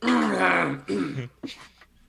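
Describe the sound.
Throat clearing from a person with something caught in the throat: a few rough, gravelly bursts, the first long and loud, the next two shorter and softer.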